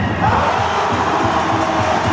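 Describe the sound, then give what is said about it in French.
A handball crowd at the Maison des Sports in Clermont-Ferrand cheers during a dramatic comeback match, a loud, continuous wash of shouting and cheering voices. “Une ambiance survoltée dans la Maison des Sports de Clermont-Ferrand.”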